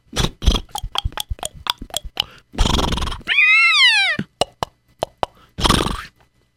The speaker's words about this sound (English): Ah, here comes those wagons and those coaches.